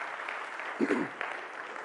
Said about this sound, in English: Let's give him a hand.